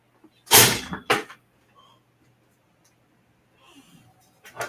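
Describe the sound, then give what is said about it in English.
A door being opened, a sharp clattering burst of two close knocks followed by near silence, then a few softer rustles and knocks at the end. “I'm going to open this door and see if it's cooling down outside.”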